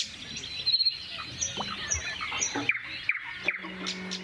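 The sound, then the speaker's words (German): A nightingale sings in quiet natural surroundings with no traffic: short, high, whistled and chirping phrases separated by brief pauses over a faint low background. “Nur dann die Natur. Da ist die Nachtigall.”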